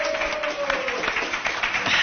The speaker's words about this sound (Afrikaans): Gee hulle hande klap.